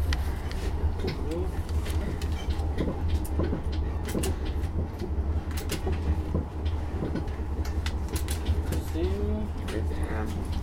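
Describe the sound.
A passenger train moving between stations gives a steady, loud low rumble with scattered clacks and rattles throughout, while people talk over the constant noise.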